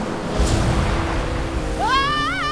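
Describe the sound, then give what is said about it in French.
Two buckets of soapy water are thrown onto a floor, heard as a sustained rushing, wave-like wash of water. A wavering whistling tone rises near the end. “L'ogre et l'ogresse jetèrent alors sur le sol deux seaux remplis d'eau et de savon.”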